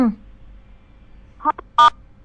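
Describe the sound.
Two short electronic telephone keypad beeps during a phone call, made by a button pressed on the handset, the second louder and steadier than the first; a brief voice fragment sounds at the very start.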